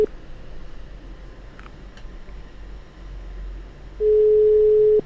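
Ringback tone of an outgoing telephone call: one steady, single-pitched tone lasting about a second near the end, over a low hiss. No dialing is clearly heard.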